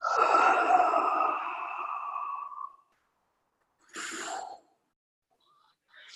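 A deep breath blown out in one long, breathy rush. After a short silence, a second, briefer breath sound follows. No one speaks.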